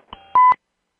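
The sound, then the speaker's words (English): Electronic beeps mark an incoming phone call on a radio call-in show: a faint short blip, then a louder steady tone lasting about a fifth of a second, followed by silence. “Hey, we got a beeper. Ron, I think we have a call.”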